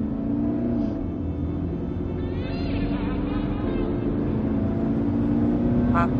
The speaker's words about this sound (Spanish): Al momento arranca. El coche avanza a toda velocidad